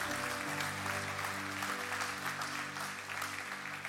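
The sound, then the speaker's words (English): A church audience applauding to welcome newly baptized believers, a soft, steady patter of many hands clapping over a held musical chord, continuous and fairly quiet throughout. “Church, can we put our hands together and make some noise to welcome those born into God's family today?”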